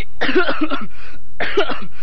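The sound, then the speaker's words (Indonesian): A person with a cough, standing in a drill formation, coughs in two raspy bursts separated by a short pause. The first burst is longer and broken into several pulses. “Baris kau pakai batuk-batuk segala. Sini kamu. Aduh, saya sakit batuk, Pak.”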